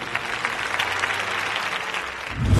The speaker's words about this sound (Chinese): 来，我们再一次把掌声送给他们。